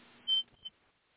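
A smoke detector gives a single short, high-pitched chirp, followed by a briefer, fainter blip in otherwise near silence.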